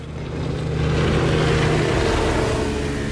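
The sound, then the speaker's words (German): Racing boats pass with a droning engine roar that builds to a peak around the middle, then eases slightly while staying loud, a low humming tone running beneath it throughout. “Diese Rennboote. Als wir vor 5 Jahren das Haus kauften, gab es die noch nicht.”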